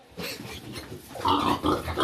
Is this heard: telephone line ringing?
no